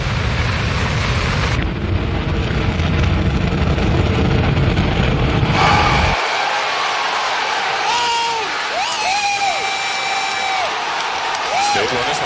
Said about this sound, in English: Mission sequence start and liftoff of the SpaceX Falcon 9 rocket. We have liftoff of Falcon 9.